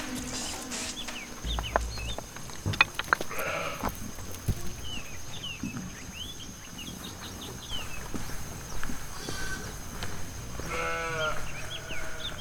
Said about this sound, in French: Je suis à la montagne, je suis bergère, je garde mon troupeau.